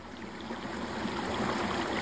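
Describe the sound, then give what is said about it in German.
A small brook babbles gently, a steady, even wash of trickling and gurgling water with no voices over it. “Aber auch das sanfte Plätschern eines kleinen Baches finde ich richtig gut.”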